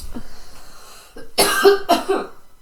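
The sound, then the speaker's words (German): A small cough made of two short, throaty bursts in close succession, preceded by quieter faint noises. “Ein Hüsterli auf Seiten von Berlin.”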